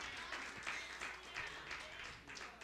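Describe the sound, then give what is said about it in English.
Congregation clapping hands in praise during a live church service: faint, rhythmic clapping with a steady pulse of regular accents, many hands together throughout. “let's give God a hand clap of praise.”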